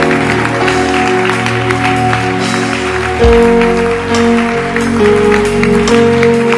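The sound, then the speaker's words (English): A church audience claps hands during a baptism service. The clapping forms a steady, dense mass of claps over sustained musical tones for the whole stretch. “There's a new you. Clap your hands.”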